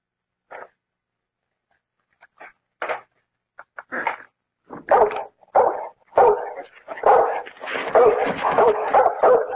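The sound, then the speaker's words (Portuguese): A dog barks behind a door, starting with a few sharp, separate barks and growing steadily more frequent until the barking runs almost continuously and louder toward the end. “Esse cachorro é uma besta! Esse cachorro é um cavalo! É um animal!”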